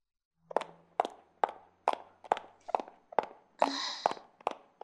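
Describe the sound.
Footsteps walking outdoors in the cold, a steady series of crisp, evenly spaced footfalls with one longer scraping, noisier step near the end, heard alone without talk.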